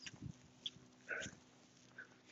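Faint dog sounds from a pet being taken on a walk: soft sniffs and a brief whimper, low and intermittent over a quiet background.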